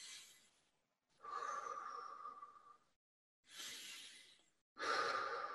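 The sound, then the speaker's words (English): Big, deep breaths during a breathing exercise come as slow, airy breaths, each lasting one to two seconds with brief pauses between them, soft and breathy with no talking. “Starts out like the other, big deep breaths,”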